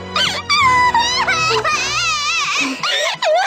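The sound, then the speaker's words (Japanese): An anime girl sobs and wails loudly, with high, wavering cries broken by short gasping breaths. The crying continues for a few seconds. “ももちゃん泣きすぎ。”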